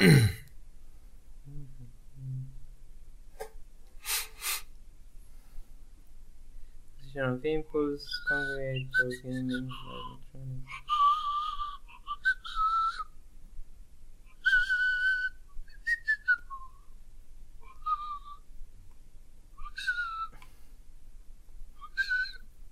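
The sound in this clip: Whistling of the program's jingle tunes by one person: several high, clear tonal phrases in separate bursts, with a short hum-like vocal passage near the start and quieter breath and throat noises between.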